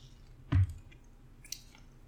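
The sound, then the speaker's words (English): A single loud, low gulp as Upslope Brewing's Blackberry Lemon Sour Ale from Boulder, Colorado, a limited-release beer, is tasted, followed by a faint click amid quiet. “Today's beer is from Upslope Brewing Company in Boulder, Colorado. It's the Blackberry Lemon Sour Ale. It's a limited release. Let's give this a taste.”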